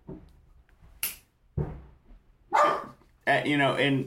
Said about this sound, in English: I got a new dog, everybody. His name's Ringo. You may hear him in the background.